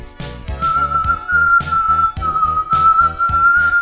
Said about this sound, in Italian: E qui c'è qualcuno che sta fischiettando, che sta guardando in giro, sì?